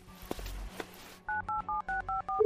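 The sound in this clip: Telephone keypad dialing tones: a rapid run of short, evenly spaced electronic beeps, preceded by a few soft clicks.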